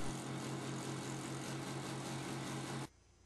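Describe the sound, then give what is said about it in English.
Motor of a vertical sander rounding a wooden clock wheel: a steady, buzzing drone with a strong low hum that holds level, then cuts off abruptly near the end. “Then mount the wheel on your vertical sander and rotate for a perfect circle.”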